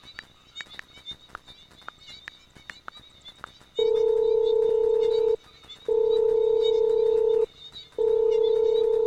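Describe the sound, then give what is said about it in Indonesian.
Ringback tone of a phone call to a friend who isn't answering: three long, loud, steady beeps separated by short gaps, following a stretch of soft, irregular clicking. “Udah aku teleponin dari tadi, tapi tuh gak diangkat, Ren. Bentar ya, aku coba lagi.”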